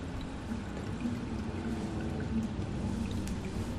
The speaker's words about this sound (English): Jacob washes his face at the sink